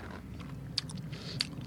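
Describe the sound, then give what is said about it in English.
Faint biting and chewing into a lemon, two soft, crisp clicks spaced apart over low background noise. “Try your lemon first. I'm going to try a lemon, okay.”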